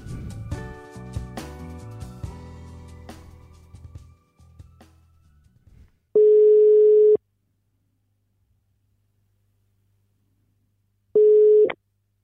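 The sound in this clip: Ringing tone of an outgoing telephone call follows music that fades out: two steady mid-pitched tone bursts separated by several seconds of silence, the second shorter than the first.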